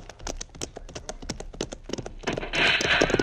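Hooves of ridden horses clip-clopping in a quick, steady rhythm of many hoofbeats. A rushing noise swells over them near the end.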